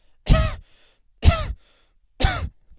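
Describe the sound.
A voice imitates a cough with three short, forced, throaty coughs spaced about a second apart, each followed by a faint tail, heard alone.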